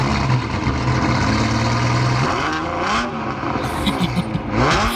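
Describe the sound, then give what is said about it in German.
A Ferrari sports car engine runs at a steady idle, then revs up with rising pitch in a couple of bursts, loud and rough throughout. “Normalerweise klingt ein Ferrari ja so.”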